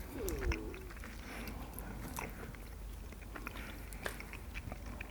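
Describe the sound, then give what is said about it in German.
Faint chewing of milk chocolate with hazelnut pieces: soft bites and a steady low mastication texture, with a few small crisp crunches scattered through. “Es schmeckt, weiß ich nicht, also wie Schokolade halt. Ja, aber meins war sehr lecker und man spürt auch die Hazelnut-Stückchen.”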